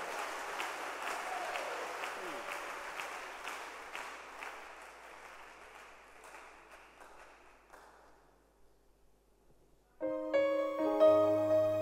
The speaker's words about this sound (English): Let's clap our hands for Jesus.